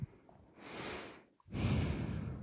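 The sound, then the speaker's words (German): Heavy breathing: two long, audible breaths, a drawn-in breath followed after a short gap by a longer, rougher exhale, both faint and with no talk. “Ich atme schwer, weil es ist Ostermontag.”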